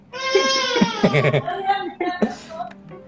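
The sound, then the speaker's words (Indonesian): A young child crying in high, wavering wails and broken sobs that rise and fall in loudness for a few seconds without pause. “anakku nangis nih”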